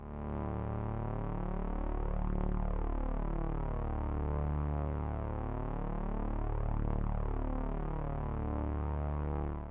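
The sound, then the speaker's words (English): The so-called brown note, a very low tone heard as a continuous buzzy drone rich in overtones, with a slow throbbing, phasing sweep running through it, steady and alone throughout. “The noise you heard is the famous brown note that a lot of people seem to think isn't real.”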